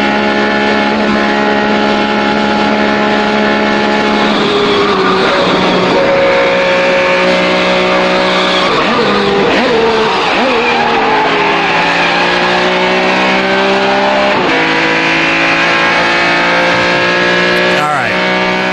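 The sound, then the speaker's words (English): Car engine running loud and continuous while driving toward a square and downshifting. The engine note steps and slides in pitch through several gear changes, with revving rises and drops throughout. “on how much motor sound there is as he heads to the square. He has to, like, downshift.”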